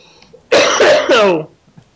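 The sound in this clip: A person coughs in a loud, rough fit of three harsh bursts run closely together, with quiet before and after.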